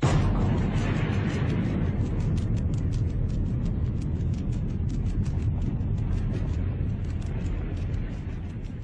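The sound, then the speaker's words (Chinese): A nuclear test detonation from China's first hydrogen bomb test produces a loud, continuous roaring rumble that stays heavy and dense throughout and eases off slightly at the very end. “九、八、拐、六、五、四、三、两、幺，起爆！”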